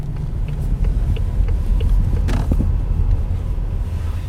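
A car driving on the road, with a steady low engine and road rumble throughout and a few faint clicks and rattles above it.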